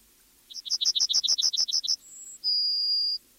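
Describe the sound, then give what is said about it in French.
A yellowhammer sings a rapid run of about a dozen short, bright, repeated notes. These are followed by a brief higher note and then a long, drawn-out lower final note, clear against a quiet background. “Et ce que vous entendez maintenant, c'est le chant d'un bruant jaune et il se fait de plus en plus rare à nos oreilles.”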